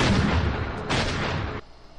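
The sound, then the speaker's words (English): Gunfire from a Dumb and Dumber movie scene in which Lloyd shoots someone: loud booming blasts with a short break between them, then the sound drops away quickly. “He cut away to Dumb and Dumber with Lloyd shooting somebody over.”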